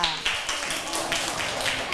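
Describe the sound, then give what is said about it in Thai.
Classroom children clap for a classmate in a brief, dense burst of applause that stays steady and fairly loud for about two seconds. “ปรบมือให้กับเพื่อนด้วยค่ะ”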